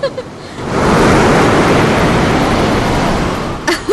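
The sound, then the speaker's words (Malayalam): Ocean waves surging onto a beach in Goa, a big wave rushing in as a loud, broad hiss that swells within the first second, holds steady and then eases off near the end. “നോക്കിയേ, ഒരു ഉഗ്രൻ തിര അടിച്ചു കയറി വരുന്നുണ്ട്.”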